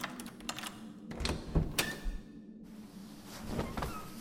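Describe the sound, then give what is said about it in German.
A key turns in a door lock with a few faint metallic clicks, rattles and a dull thunk against a hissy background. “Als er erneut den Schlüssel hörte, betete er, dass es Miss Elsa sein möge.”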